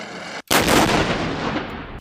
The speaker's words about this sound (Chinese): 塞北某训练场，陆军某旅组织装甲分队展开全流程全要素实弹射击考核